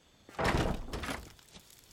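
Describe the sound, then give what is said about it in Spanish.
A window shutter and a room door being closed in a house: a heavy thud with a rattling tail, then a second softer knock, and a tiny click at the very end. “Apolinar Moscote cierra una persiana y la puerta de una habitación en su casa.”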